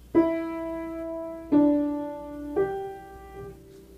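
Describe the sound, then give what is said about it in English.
Three-note musical theme evoking last breaths and a pulse: three sustained, resonant tones sounded about a second apart, each swelling then slowly decaying, soft and alone. “It's a simple three-note theme that depicts Dad's last breath, Dad's last breaths and pulse.”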